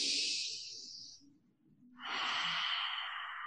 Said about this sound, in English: taking a deep breath in through the nose to start and releasing. And one more time in through the nose.